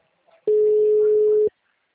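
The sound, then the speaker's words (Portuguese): A telephone ringback tone plays as a caller phones someone who does not answer. A single loud, steady, single-pitched tone lasts about a second, with near silence before and after. “Tô ligando pra Isabel. Mas a Isabel não me responde.”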